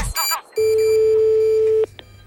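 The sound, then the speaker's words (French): A telephone call is dialed, starting with a brief burst of dialing tones. One long, steady line tone follows and is cut off by a click. “nous appelons deux personnes. Actuellement, nous sommes en train d'appeler Monsieur Villadar, Jean, ainsi que Monsieur Villosset Célestin”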